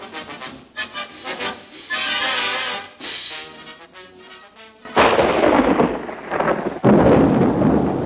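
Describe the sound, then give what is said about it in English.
Nighttime rainstorm with thunder, as rain slashes down: after a quieter, tonal opening, heavy roaring bursts of rain and thunder crash in loudly and swell twice through the second half. “Rain slashes through a deep blue sky filled with black storm clouds.”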